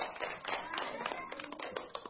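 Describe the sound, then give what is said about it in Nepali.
Faint, quick audience clapping at a Nepali school quiz, a dense patter of hands that stays even and thin throughout. “सबै मिलाइदिनु भएकोमा साथीहरूलाई धेरै धेरै बधाई छ र ताली बजाएर साथ दिनु भएकोमा धेरै धेरै धन्यवाद.”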